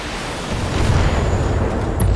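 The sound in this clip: Explosion destroying a vehicle in a video game: a deep, rumbling roar swells after about half a second and holds as a loud, broad rush of noise to the end.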